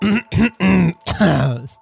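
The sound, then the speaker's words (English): A person clears their throat in several rough, voiced, gravelly bursts with brief pauses between them, fairly loud and alone. “Starting off with a throat clear.”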